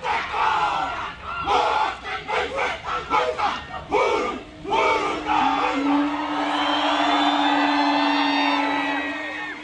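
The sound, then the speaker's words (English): A large crowd roars and whoops in welcome as a rugby team arrives at the edge of the field at Victoria Park, with rhythmic bursts of shouting that swell into one sustained, loud cheer. “With an escort from their hotel rooms, the team moved past eager fans, paving a trail through the city to the edge of the field at Victoria Park. A thunderous welcome awaited.”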